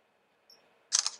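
A camera shutter clicks once as a booklet is photographed with a phone text-scanning app under a lamp; a faint short beep comes first, then a single sharp, bright click with a brief rattling tail, alone in near silence.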